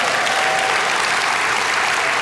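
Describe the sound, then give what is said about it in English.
Loud applause from an audience during a talk, a thick, even wash of many hands clapping that stays steady throughout with no talk over it. “Good job, team. Let's give him a big round of applause.”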